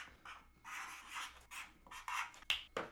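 Scratchy strokes of someone writing by hand come in a few short bursts of uneven loudness, with the sharpest scrapes near the end and no voices.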